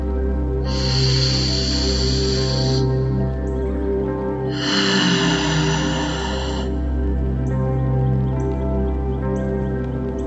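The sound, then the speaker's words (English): Slow, deep breathing during a meditation: two long, airy breaths rise and fade over a steady, sustained droning tone that continues beneath them. “Continuing to breathe these deep breaths.”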